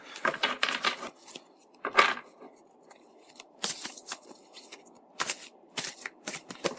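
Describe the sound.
Tarot cards being shuffled for a reading: several quiet, crisp riffling bursts come in irregular clusters, separated by short pauses.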